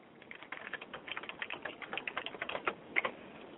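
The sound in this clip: Faint, steady keyboard typing patters along as a quiet, even run of many soft clicks on a computer keyboard.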